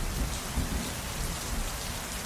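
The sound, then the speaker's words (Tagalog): Heavy rain pours steadily at nightfall in a rural settlement, a dense, unbroken hiss of drops with a low rumble beneath, loud and continuous throughout, with no voices. “Sa pagkagat ng dilim, hindi pa rin tumila ang ulan. At habang tumatagal, ay palakas ito ng palakas.”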